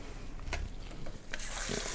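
Water running and splashing as small containers are rinsed at a sink by hand, without a brush. Faint clatter first, then a steady hissing rush of water fills the second half.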